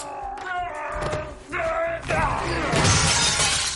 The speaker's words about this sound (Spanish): Lanza al oriental contra la ventana. Un pedazo de cristal cae sobre su cuello a modo de guillotina